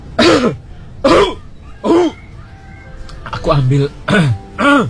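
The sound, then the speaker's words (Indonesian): Repeated coughing and throat clearing from a person with an itchy throat, a street-food seller who feels unwell. A series of short, rough, voiced bursts come at irregular intervals with quiet gaps between them. “Aku ambil segelas air putih aja lah untuk menghilangkan rasa gatal di tenggorokanku ini.”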